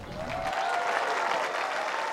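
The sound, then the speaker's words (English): Standing ovation from a crowd as a bronze statue of Obama holding his daughter Sasha's hand is unveiled for the City of Presidents sculpture project. The clapping is dense and sustained after a brief low rumble at the start. “The crowd gives a standing ovation when the bronze is revealed.”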